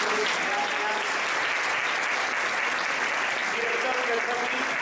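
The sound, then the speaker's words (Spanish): An audience applauds a panel of experts at the close of a live discussion event. The clapping is dense and steady, sustained at an even level throughout, with faint voices underneath. “Un fuertísimo aplauso para este maravilloso panel de expertos.”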